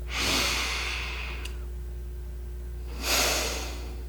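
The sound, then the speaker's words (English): Two slow, deep breaths taken during a mindfulness exercise, each a soft, airy rush of air separated by a long pause, faint over a steady low hum. “I'd like to invite you to take a few deep breaths.”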